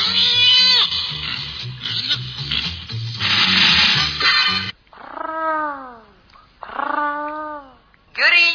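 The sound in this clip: Cats meowing off-key: a loud, tangled stretch of caterwauling gives way to three separate drawn-out, wavering meows with clear gaps between them.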